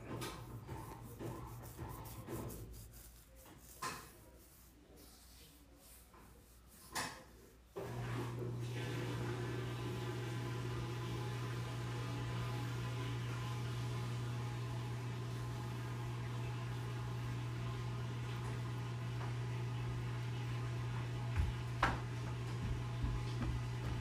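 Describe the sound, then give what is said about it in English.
A washing machine runs with a steady low hum that starts abruptly after several quiet seconds and stays faint and even to the end, with a couple of soft knocks before it. “Yeah, that's the washer. It's going in.”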